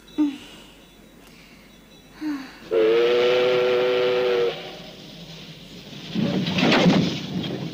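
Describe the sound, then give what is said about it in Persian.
A steam train whistle sounds in one sustained, steady-pitched blast lasting nearly two seconds, with low rumbling noise before it and after it. “این صدای چیه؟ مطمئنی که قطار به طرف خونمون میره”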